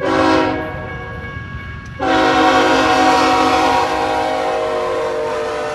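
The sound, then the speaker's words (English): A train horn blares as a train rolls through downtown Flagstaff, Arizona, in the morning: one short blast, a pause, then a long, steady, chord-like blast that holds to the end. “That's the sound of the train chugging through downtown Flagstaff on a recent morning.”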